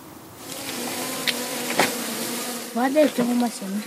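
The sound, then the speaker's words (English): Honeybees buzz around beehives as a beekeeper scoops out honey in a mountain-gorge village, a faint, steady hum with a brief voice near the end. “is tending to his beehives with one of his five children, scooping out a few handfuls of honey.”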